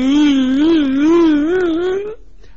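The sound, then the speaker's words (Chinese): A performer's voice imitates a grown man crying: one drawn-out, mid-pitched wailing moan whose pitch wavers in sobbing undulations for about two seconds, then cuts off abruptly into near silence. “宋江说：“兄弟，别哭别哭别哭别哭，你探看老娘就探看老娘啊，哭什么呢？哭什么？”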